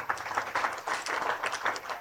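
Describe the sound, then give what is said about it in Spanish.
Community members applaud at a gathering, a faint, steady patter of many hands clapping with small uneven swells. “ocho aplausos de los hermanos de la patria.”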